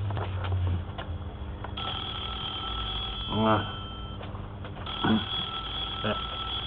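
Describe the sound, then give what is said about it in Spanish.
A telephone rings early in the morning in a house, giving a sustained electronic ring with a steady pitch that stops and then starts again once. Brief, other vocal-like sounds are heard between the rings. “Precisamente al otro día, bien tempranito, sonó el teléfono en la casa de Luis.”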